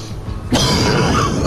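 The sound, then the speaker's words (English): Harsh coughing and choking after inhaling silver particles from an air vent. A sudden raspy burst starts abruptly and stays loud and rough to the end. “chokes on silver particles shimmering through the air from a vent and coughs up a ball of flame.”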